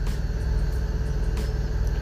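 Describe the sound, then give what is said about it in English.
An 18-wheeler truck drives in strong wind, giving a steady low engine and road rumble with a few brief gusty swells breaking over it. “So folks, keep an eye on, the winds are getting stronger. I'm driving an 18-wheeler. And it's pushing me practically off the road.”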